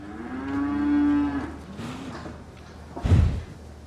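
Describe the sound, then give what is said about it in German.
A cow moos once in a long, low, steady call that fades after about a second and a half. A brief dull thump follows near the end, with no talking. “Renate, du bist aber wirklich eine schöne Kuh”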